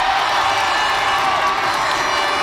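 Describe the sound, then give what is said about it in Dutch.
Applause and cheering from a crowd of supporters watching a World Cup match: continuous loud clapping with shouts and whoops, steady throughout without a break. “Een applaus voor ze.”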